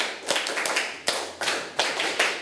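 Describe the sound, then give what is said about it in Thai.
Children clapping their hands, a group clapping in uneven bursts of sharp, bright claps with a few stronger accented claps spaced about every half second, moderately loud with no talking. “มาดูเด็กๆที่นั่งอยู่ปรบมือ1ครั้งปรบมือ1ครั้งปรบมือ10ครั้ง”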